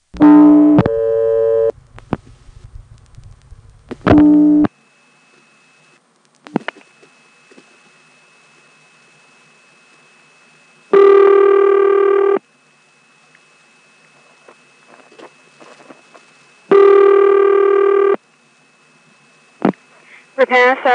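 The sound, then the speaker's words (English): Telephone call dialed through a Warsaw selector on the zero trunk of an old exchange: sharp switching clicks and rattles, several separate bursts of buzzy tone with long gaps between them, and a thin, steady high tone running through much of it. “Well, let's get back to that Warsaw selector on the zero trunk and dial 03.”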